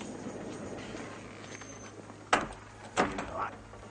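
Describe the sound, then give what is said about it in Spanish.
Servants leaving an eighteenth-century room close the door: two short, muted knocks a moment apart, the first sharper, over a faint steady hiss and low hum. “los sirvientes con peluca, casaca y calzón blanco ribeteados de dorado abandonan el recinto y cierran la puerta.”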